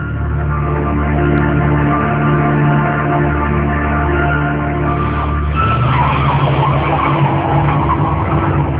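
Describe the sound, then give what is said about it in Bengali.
A police car pulls up in front of a school and college. Its engine gives a loud, steady tonal drone that shifts partway through into a rougher, broader tire-scrubbing noise as it comes to a stop. “Wiseman school and কলেজের সামনে একটা পুলিশের গাড়ি এসে থামল।”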